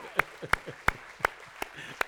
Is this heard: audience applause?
yes